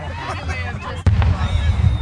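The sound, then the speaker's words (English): Fireworks explode at a firework show: one sharp burst midway, followed by deep rumbling and crackle. Crowd chatter runs throughout. “This is not your grandfather's firework show. Did you see that one? Four different colors.”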